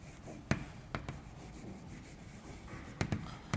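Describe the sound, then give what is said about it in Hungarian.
Faint writing strokes as a note in parentheses is jotted down: quiet scratchy rubbing broken by a few sharp taps over a low background hiss. “Azért ezt ide is írom zárójelben.”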